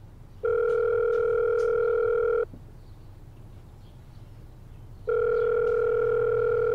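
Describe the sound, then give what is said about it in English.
A telephone ringing tone plays while a call is placed, two long, steady electronic tones of about two seconds each, separated by a silent gap, over a low background hum. “I tried one more time to call him before I left the station.”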